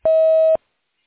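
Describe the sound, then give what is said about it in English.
A voicemail tone before a message is recorded: one steady electronic beep lasting about half a second, alone and fairly loud, followed by silence. “The person you are trying to reach is on the phone. Leave your message at the tone. Press pound when finished.”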